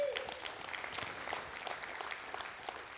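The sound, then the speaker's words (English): Applause from a church audience: many hands clapping in a dense, even patter at moderate loudness, holding steady from start to finish. “Give everyone that's joining us online a big hand as well.”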